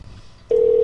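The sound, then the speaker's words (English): Telephone tone while dialing a call that does not ring through: after a quiet start, a single steady mid-pitched tone begins abruptly and holds to the end. “I was dialing people, it's just it wasn't ringing for the other guy. I tried three times.”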